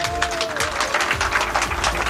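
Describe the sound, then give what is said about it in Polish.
A few people clap in a radio studio, making a continuous, fairly brisk patter of hand claps at moderate loudness with no pauses. “Proszę o oklaski dla Mai.”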